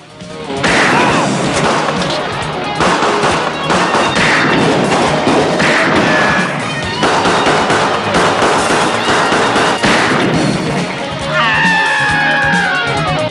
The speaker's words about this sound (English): Kersey points up and hits one with a magnum shot.